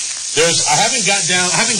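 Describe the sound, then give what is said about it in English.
Lean burgers sizzling as they cook: a bright, steady hiss that runs under a man's voice talking throughout. “the smoke is going to get pretty heavy in here with burgers. Okay. Well, I'm cooking”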